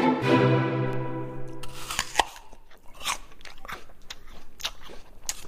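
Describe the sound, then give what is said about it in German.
A crisp bite into a juicy apple: one loud crunch, then a run of wet, crackly chewing crunches that continue steadily to the end, with no talk. “Nach dem Sportunterricht schmeckt so ein saftiger Apfel richtig lecker.”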